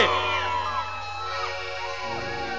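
Girls in the audience scream and cheer at a live concert at Salón Manía in Salta, a continuous wash of high, piercing shrieks and whoops that stays loud and steady throughout.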